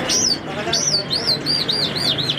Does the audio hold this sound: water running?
no